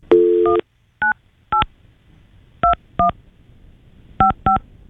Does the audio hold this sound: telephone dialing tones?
yes